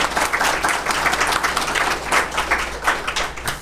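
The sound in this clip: An audience applauds at the opening of a comic book show, with dense, steady clapping that stays loud throughout and never pauses.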